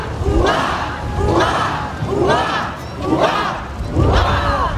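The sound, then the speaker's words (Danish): A crowd shouts hurrah for the royal couple in rhythmic unison, five loud, swelling cheers spaced about a second apart, each rising and fading before the next. “Vil ikke nok hjælpe mig med at udbringe et ligefoldigt leve for kongeparret? Hurra! Hurra! Hurra! Hurra!”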